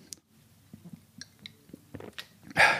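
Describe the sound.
Gulping and swallowing sounds of someone drinking beer: a run of soft, irregular wet clicks and gulps, ending with a louder breathy burst, with no talking.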